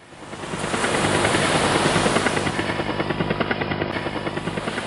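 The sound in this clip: A helicopter's powerful engine runs at full throttle as the lever is pushed up, giving a loud, steady roar with a fast, even rhythmic chop from the rotor blades throughout.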